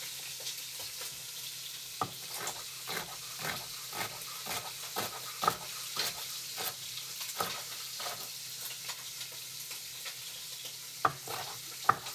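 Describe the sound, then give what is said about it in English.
Meat browning in a pot ahead of a few hours of slow cooking in the oven: a loud, steady sizzle with many sharp pops and crackles scattered throughout, and no voices. “It sounds really loud, but you want that crisp. I want that crisp on the outside because it's going to get really soft as it slow cooks for a few hours in the oven.”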